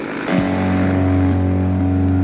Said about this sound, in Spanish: Está fallando el motor. Yo estoy sobre las montañas y no puedo aterrizar.